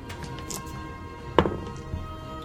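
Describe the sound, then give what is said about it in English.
A twenty-sided die is rolled for a death saving throw in a tabletop role-playing game. It lands with one sharp clack, followed by a few quick, fainter rattles and a final soft tap over low background hiss. “Death saving throw. Is that a d20? It is.”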